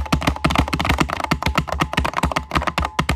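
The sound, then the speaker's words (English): Rapid typing of a passcode on a keypad: many quick, crisp key taps in an uneven run, fairly loud and with no voices over them. “All right, so we gotta type in the passcode.”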